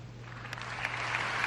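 Applause from a crowd at a papal event in Colombia, a steady dense patter of clapping that is fairly faint and continuous, with a low hum underneath and no voices.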